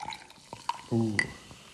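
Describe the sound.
Hazy pale ale of 4.8% alcohol being poured just after opening, producing little foam; faint drips lead into a short gurgling splash of liquid, then fade.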